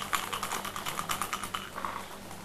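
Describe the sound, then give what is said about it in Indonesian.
Dice rattle as they are shaken during a board game, making a rapid, irregular clatter of small hard clicks that continues throughout. “Kocok sampai bijinya keluar 6.”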